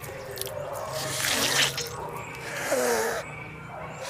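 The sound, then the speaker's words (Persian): Water being poured, a steady splashing stream that swells a little partway through and cuts off shortly before the end, leaving quiet. “چرا داری آب بریزی؟”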